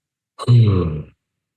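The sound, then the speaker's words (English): A deep breath released in a guided breathing exercise, heard as one low, breathy, voiced sigh out through the mouth that lasts under a second and fades away, loud and alone. “big inhale in through the nose. Take your time, inhale, and then exhale through the mouth.”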